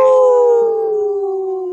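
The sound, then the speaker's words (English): People imitate wolves with their voices in a loud, sustained howl that slowly falls in pitch and carries a slight waver toward the end. “That's what we do here. We howl.”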